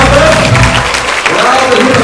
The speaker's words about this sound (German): Applaus hier oben.